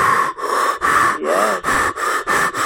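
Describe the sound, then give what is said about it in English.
A voice imitates ragged breathing through scuba breathing apparatus: a quick run of harsh, hissing breaths in an uneven rhythm, each broken by a short gap, heard alone. “as I got in the water, I realized my breath was really ragged. And when you're breathing with the breathing apparatus, you can hear it and feel it.”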